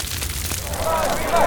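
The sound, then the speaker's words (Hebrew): Wind fans a fire into a big flame, and a loud, continuous whooshing roar of flames swells slightly toward the end with no pause. “היי, תרחקו מהאש הזו. כבוד המלך, הפעם הרוח ליבתה את האש ונהייתה להבה גדולה במקום שהיא תחבא.”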